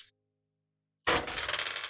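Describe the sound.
Dice are shaken and rolled for a dice pool game. A short burst is followed by near silence, then a sudden loud clatter turns into a quick, rhythmic rattling, like a maraca.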